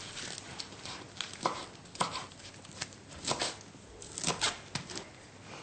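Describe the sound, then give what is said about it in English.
A knife chops a small handful of fresh spinach, giving many soft, quick, irregular taps that stay faint throughout, with no talk. “So we're gonna chop a little bit of, just a little handful of spinach.”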